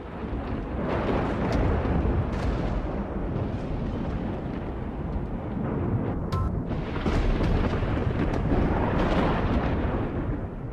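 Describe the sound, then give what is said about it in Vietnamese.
A deafening thunderclap bursts from the sky as a loud, sustained rumbling roar that fills the whole stretch, with heavy low boom and crackling texture rising and falling slightly, and no voices. “Lập tức một tiếng sấm đinh tai nhức óc từ trên tầng không đùng đùng nổ”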